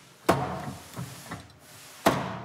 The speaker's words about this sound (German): In dem Schloss ist nichts anderes als ein federgelagerter Pin. Und durch das Draufhauen schlagen wir den Pin zur Seite. Und wenn man in der richtigen Sekunde dreht, können wir den Tresor einfach aufschließen.